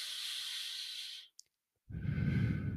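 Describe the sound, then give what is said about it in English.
A deep breath drawn in through the nose as a steady airy hiss, then a short silence and a fuller, lower rush of breath blown out through the mouth, with no talking. “That inhale deep through your nose”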